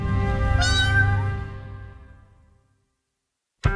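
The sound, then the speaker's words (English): A cat meows in a film studio's animated logo intro: one long, loud, tonal meow that wavers in pitch and fades over about two and a half seconds, then a short, sharp burst of sound at the very end. “A cat appears in the O of Europa.”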